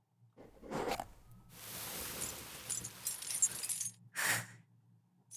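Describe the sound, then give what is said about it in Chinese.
Metal locks jangling inside a container: soft clinking and rattling in a few bursts, with a longer shaking stretch between shorter ones. The sound is fairly faint, with no talk. “听到这个声音了吗？这里面装满了我为你量身定制的催眠锁”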